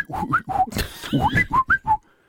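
A person whistling a quick series of short, clear notes, some rising and some falling in pitch, with a brief breathy gap partway through and a near-silent end.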